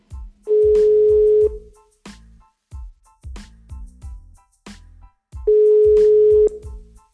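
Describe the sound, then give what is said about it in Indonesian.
Ringback tone of an outgoing telephone call: two steady one-second tones separated by a long pause, with rhythmic thumping and knocking sounds between and around them. “Oke, gue bakal telepon mantan gue dulu nih.”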